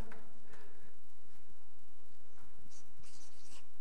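Writing a word on a board gives faint, scratchy, rubbing strokes, a few short scrapes in quick succession, with no voices.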